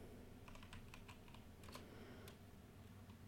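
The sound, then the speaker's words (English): Typing on a computer keyboard: faint, quick clusters of light keystroke clicks over a steady low hum, with short pauses between bursts. “I'm probably going to need you to type that out. Oh, I'm typing it out.”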